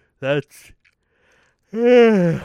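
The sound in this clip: A person yawning: a short voiced sound, a pause, then a drawn-out, voiced, tonal exhale lasting under a second.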